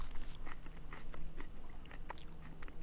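Someone chews a freshly torn leaf of wild lettuce, with many soft, irregular crunches and bites and no talk.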